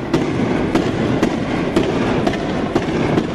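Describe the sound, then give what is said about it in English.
Tear gas canisters fired by troops at civilians, heard as a steady series of about seven sharp pops roughly half a second apart over continuous rough background noise. “That was the sound of Israeli troops firing tear gas at Palestinian civilians Monday.”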